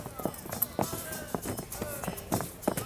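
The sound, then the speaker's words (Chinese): Hooves clip-clopping from a horse-drawn carriage, a loose rhythm of sharp impacts that repeat under ongoing talk. “那人说这辆马车是给您准备的。”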